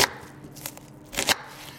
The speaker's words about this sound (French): Je peigne un oignon que j'émince